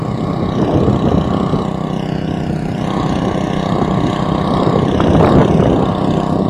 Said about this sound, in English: There's certainly a generator.